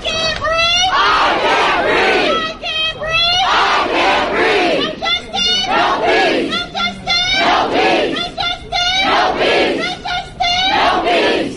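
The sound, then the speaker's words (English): A large crowd of demonstrators in Alabama chants in unison, repeating loud, rhythmic shouted phrases over and over with hardly a pause. “Here is some sound from a group of demonstrators in Alabama.”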